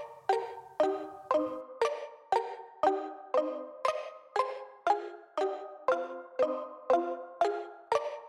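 Ringing on a phone line while a call is placed: a long series of bright, chiming tone bursts, evenly spaced about half a second apart. They repeat at a steady rhythm, fairly quiet and with no other sound.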